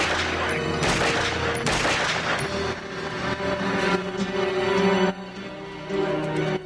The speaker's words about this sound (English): The two men push John along the roof edge with strafing fire.